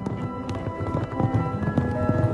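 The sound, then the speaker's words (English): Horses gallop through mud, their hooves making many heavy, dull thuds in a rapid, irregular, continuous rhythm. “Hooves pound through mud.”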